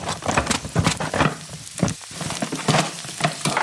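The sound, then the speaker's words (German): Onions sizzling as they fry in a pan, a continuous crackling hiss with irregular louder bursts throughout. “Oh, Zwiebeln umrühren. Ja, ein bisschen brauchen die noch.”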